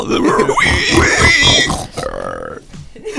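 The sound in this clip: A person's voice imitates a pig with rough, snorting grunts and oink-like squeals that are loud at first. A few quieter, shorter grunts trail off afterward.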